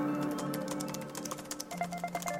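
Quick, irregular keystrokes from a computer keyboard as someone types a Google search, light tapping over a steady tonal background.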